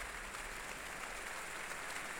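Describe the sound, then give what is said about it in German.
Audience applause after an opera act, for the extras and dancers who played angels and friars, makes a dense, even wash of clapping that stays fairly faint and steady from start to finish. “Und hier gibt es jetzt zunächst Applaus für”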